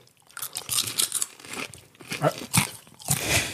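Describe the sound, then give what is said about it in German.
Crunching of a crunchy Kansas City-style snack mix shipped from overseas as it is chewed, with many sharp, irregular crackling bites that come in quick bursts, with no talking over them. “Also wir haben auch, wenn man es hört, Crunch. Ist völlig anders.”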